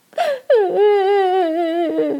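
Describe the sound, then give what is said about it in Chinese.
A girl cries, Dorothy parting from her friends, with a short sob and then a long, wavering high wail that holds steady and stays loud. “陶乐斯一想到马上要和好朋友们分别，忍不住呜呜呜的哭了。稻草人、铁樵夫和大狮子也都泪眼汪汪的哭成一团。”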